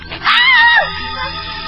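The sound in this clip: A woman screams in fear, a short, loud, high-pitched cry that bends and slides downward before fading into a lower, steady background.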